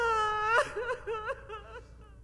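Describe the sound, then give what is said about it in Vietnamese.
Anguished wailing and sobbing from an elderly couple at night, a wavering, moaning cry that slides up and down in pitch and fades into quieter whimpers. “Tiếng khóc than của hai người cứ vang vọng trong đêm.”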